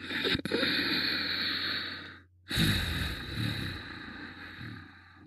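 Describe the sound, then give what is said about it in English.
Ujjayi breathing through the nose with the throat toned, so each breath carries a rushing, hissing noise. One long breath fills the first two seconds, a brief pause follows, then a second long breath gradually fades. “The breath will still make a noise coming in and out of the nose. This is the Ujjayi breath.”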